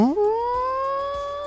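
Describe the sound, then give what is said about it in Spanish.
A person's voice imitates a siren, a single sustained tone that swoops upward at the start and then holds, creeping slightly higher, for over a second. “Quise hacer el ruido de una sirena y no me salió.”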